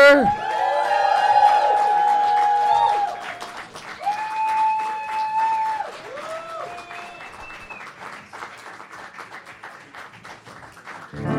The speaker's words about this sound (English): Now, make some noise for UCB Sports and Leisure!